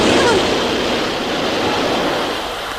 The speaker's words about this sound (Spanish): ¿Nota la brisa del metro?